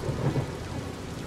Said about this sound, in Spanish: La lluvia seguía.